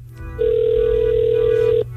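A ringback tone sounds on the telephone line after a call is dialed, one long, even tone lasting about a second and a half over a low, steady hum.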